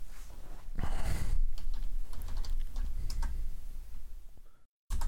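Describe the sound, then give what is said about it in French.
A question is being typed on a computer keyboard: a quick, uneven run of many light key clicks and taps that goes on for several seconds, then cuts off abruptly into silence. “Attends, j'écris la question.”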